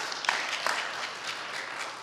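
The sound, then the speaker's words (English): Audience applause welcomes a speaker to the stage, fairly quiet, steady clapping with a couple of sharper individual claps standing out early on. “let's give a warm round of applause for Trey Richards”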